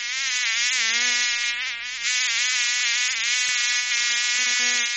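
Mosquitoes and flies buzz in a continuous, loud, whining drone with rich harmonic overtones, holding steady throughout apart from a brief dip in level, with no voices.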